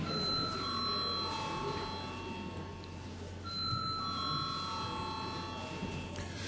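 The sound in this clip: An electronic bell rings in a parliamentary chamber to call members to a vote, giving steady high ringing tones in two long stretches over a low hum and faint room murmur.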